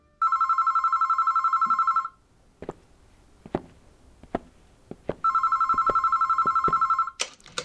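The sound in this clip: A telephone rings in two long, rapid trilling bursts. Scattered sharp clicks and knocks fill the quiet gap between the rings.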